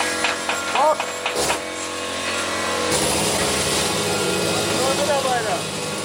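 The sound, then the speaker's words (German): Sanding and angle grinding on board a ship make a loud, continuous mechanical whine and rasp. A voice talks over the steady noise. “Ganz schön laut übrigens. An jeder Ecke an Bord wird geschliffen, geflext und gehämmert.”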